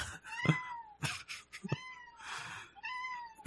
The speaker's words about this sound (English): You might hear a cat. I already have, and I see a tail.